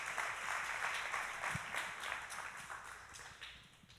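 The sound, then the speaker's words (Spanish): An audience applauds the Lord during a bilingual church sermon, with a crowd of hands clapping steadily before the applause gradually tapers off toward the end. “Dale fuerte el aplauso means, al Señor.”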